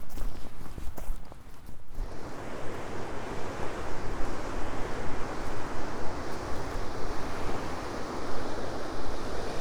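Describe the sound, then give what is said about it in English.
Waves break on Gwithian Beach at high tide in a steady, loud, broad wash of surf with wind noise. Brief crackling noises sound at the start. No one speaks. “The tide's further in than I thought. So I can't even get down to the beach at the lifeguard hut.”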